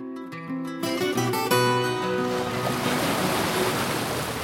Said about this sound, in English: For us, this is the sound of the sea.